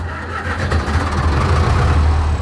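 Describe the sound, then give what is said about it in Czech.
A vintage 1962 tractor engine, a classic forty-horsepower-class model, starting up at a historic tractor exhibition on a farm site. It makes a loud, steady, low chugging rumble that runs throughout, with no talk. “To je zvuk klasické čtyřicítky. Jak starý tenhle ten traktor vlastně je? 62, rok výroby 62.”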